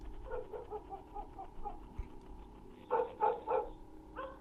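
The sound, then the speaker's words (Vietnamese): A dog barking out on the main road: a run of soft, intermittent barks, then a louder cluster of three barks and one more near the end. “có tiếng con chó nó sủa nhấm nha nhấm nhằng.”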